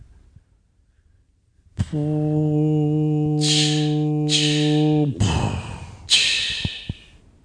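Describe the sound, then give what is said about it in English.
A voice imitates giant gas escaping from the earth: a long, droning vocal hum of about three seconds, overlaid and then followed by several breathy hissing bursts. “I think we should do one right now. This is the sound of a giant thing of gas escaping from the earth.”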